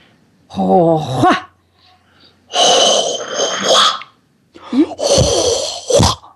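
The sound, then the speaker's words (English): A voice makes a breathy healing sound for the spleen: three loud, drawn-out, airy exhalations with a rough, voiced edge, separated by short silences. “The sound for spleen, it goes like this.”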